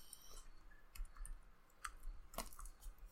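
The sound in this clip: Faint, irregular keyboard clicks during a tabletop role-playing game session: a few scattered keystrokes and light taps at a low level, with no voices over them.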